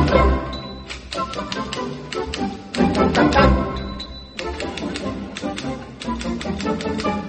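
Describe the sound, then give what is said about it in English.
Typewriter keys played as a musical instrument clack in quick rhythmic bursts within a dense musical piece, with a couple of bright bell dings ringing out over the tapping. “I want to play the typewriter in this piece.”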